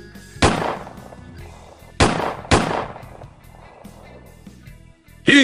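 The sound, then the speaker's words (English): Three sharp gunshots from a pistol fired at a computer personality, one alone and then two close together, each a loud crack with a decaying tail over a faint low background. “I promise I won't shoot another computer personality again.”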